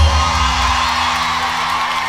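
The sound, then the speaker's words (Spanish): Loud applause and cheering from a crowd, whoops and shouts riding over continuous clapping, with a low hum underneath, strongest at the very start and then holding steady. “fuerte, fuertísimo el aplauso.”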